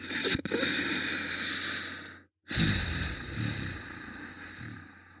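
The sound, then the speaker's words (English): Ujjayi breathing through the nose with the mouth closed and the throat toned, heard during a guided breathing practice: a long, steady, hissing breath, a brief silent pause, then another long rushing breath. It is faint and there is no talk. “The breath will still make a noise coming in and out of the nose. This is the Ujjayi breath.”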